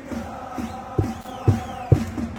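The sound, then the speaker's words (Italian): Football fans' chorus singing, accompanied by a player: a crowd of voices chanting over regular, heavy drum thumps about half a second apart, the beats standing out loudly against the sustained sung tone. “Arriva il coro dei tifosi accompagnato da Matteo Gasperi, numero 7.”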